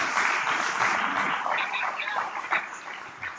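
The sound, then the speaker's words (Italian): Audience applause, a moderately loud crackling patter of clapping that continues steadily and thins a little toward the end. “c'è un applauso commovente”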